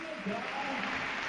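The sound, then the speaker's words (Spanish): Stadium crowd at a football match applauding a substituted player leaving the pitch, many fans on their feet. A steady, soft wash of clapping runs under a talking voice. “el suizo Seferovic, el que se retira del terreno de juego con ovación y gente puesta en pie en sus butacas”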